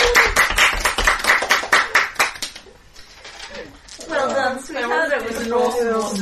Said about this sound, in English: Let's give a round of applause to Jared.